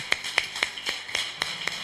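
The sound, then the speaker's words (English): During a church sermon, the audience claps for Jesus as a steady beat of about eight sharp, evenly spaced claps, crisp and fairly quiet. “Why don't you clap for Jesus?”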